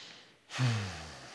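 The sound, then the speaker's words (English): A single deep breath taken during a guided relaxation exercise: a sudden breathy rush that opens with a brief low voiced sigh, then tapers off gradually. “Just relax your shoulders for a minute. Take a deep breath.”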